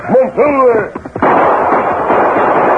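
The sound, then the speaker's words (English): Gunfire from a rider shooting over the heads of a group of chiefs in a dramatized frontier scene: a tonal, voice-like cry comes first, then a few short cracks and a loud, dense, sustained burst of shots. “The Lone Ranger rode from the underbrush, firing over the heads of Crazy Bear and the four chiefs”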